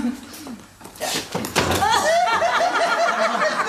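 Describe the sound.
Door swinging open for an arriving visitor, a few knocks and thunks followed by voices and a soft chuckle.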